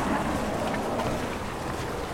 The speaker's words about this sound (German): Wir stehen hier gerade am Bootssteg, da liegen bestimmt 10 Airboats. Im Hintergrund kann man noch die Straße hören.